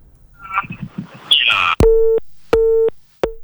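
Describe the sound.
Busy tone on a phone-in call over a landline to a dangdut radio show after the caller's line drops: a burst of line noise and rustle gives way to three steady, mid-pitched beeps, the last cut short.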